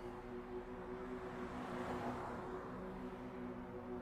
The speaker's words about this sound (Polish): Silnik jest odpalony.